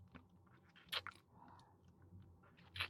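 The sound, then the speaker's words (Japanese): Chewing a cookie: soft, quiet crunching and mouth sounds with two sharper crunches, one near the start and another near the end. “そういえばさっき食べたクッキーの味見する？”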